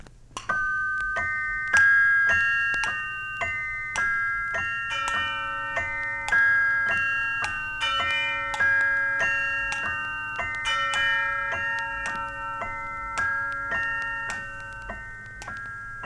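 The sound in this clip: Clock chimes ring out a bright, bell-like melody of many overlapping notes above a soft, regular ticking pulse, playing steadily throughout, with no voices.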